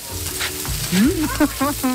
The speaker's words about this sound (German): Da brutzelt schon eine Wokpfanne mit Gemüse